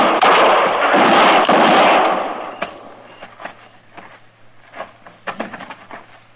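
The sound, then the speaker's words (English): Gunshots ring out in a tense Western marshal standoff in the dark: a loud roaring blast with a long rumbling tail, then a few smaller, sharper cracks that fade. “I tried for his shoulder the first shot, but I missed.”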